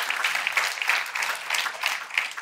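Congregation applause during a church sermon: lively, dense clapping with bright rhythmic peaks, holding loud and steady for about two and a half seconds without speech.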